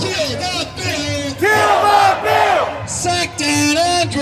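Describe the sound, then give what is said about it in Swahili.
A crowd of protesters marching against Victoria's pandemic bill, a loud mass of shouting and chanting voices that swells in bursts, with whoops and yells rising above the throng. “Umati wa watu waliandamana mjini wakiomba mswada tata wa jimbo hilo kwa janga ufutwe.”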